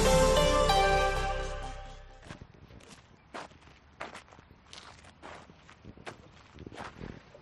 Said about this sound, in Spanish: Pues sí, estoy andando, y estoy andando por un camino entre naturaleza